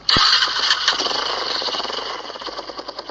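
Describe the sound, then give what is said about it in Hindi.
A motorcycle engine starts with a sharp, loud catch and then runs on with a steady, buzzing rumble that pulses rapidly, the throbbing becoming more distinct toward the end. “Jeep के व्यवस्था कर जाय छी भाई हे बैठ motorcycle पर चल”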